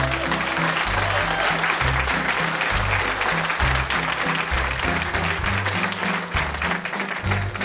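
Audience applause for a group of comedy performers, dense and steady from start to finish with no break.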